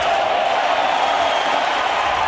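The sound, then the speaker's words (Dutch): A tennis crowd cheers on Novak Djokovic as he fights back tears during a five-set loss to Mariano Navone, forming a dense, steady roar with no breaks throughout. “Ja, en toen die toptennisser het zichtbaar moeilijk had en vocht tegen de tranen, probeerde het publiek hem erbovenop te juichen.”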